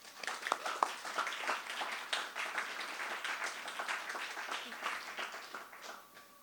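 Audience applause welcoming authors at a bookstore reading: soft, continuous clapping from a modest crowd, holding evenly for about six seconds.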